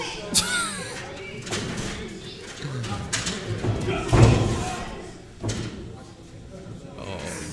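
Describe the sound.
Body slams land on a wrestling ring during a ladder match: a few sharp, heavy thuds, the loudest near the middle, over steady crowd noise while commentators talk.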